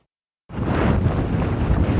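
Strong wind blowing against a microphone in very windy South Central Pennsylvania: a dense, rumbling roar that bursts in suddenly after half a second of silence and stays loud and steady to the end.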